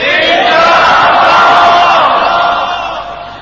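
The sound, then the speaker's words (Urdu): A crowd at an Islamic gathering loudly shouts the slogan Inshallah in unison, one long, massed roar of many voices that holds strong and then tapers off at the end. “تو آپ نیت کر کے انشاءاللہ کا زوردار نعرہ تو لگا دیں.”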